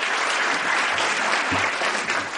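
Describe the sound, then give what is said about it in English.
An audience in a university auditorium applauds as an author is introduced. The clapping is dense, loud and continuous, and its texture stays even before it eases slightly at the end. “From the applause, I judge that Mr. Gregorian needs no introduction”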